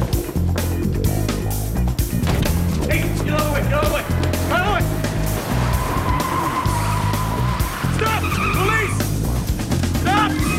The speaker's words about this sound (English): shoots out a tire, and the car skids to a halt.